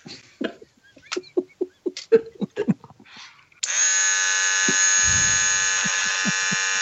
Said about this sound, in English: The hell is that? I was going to shave my balls quick.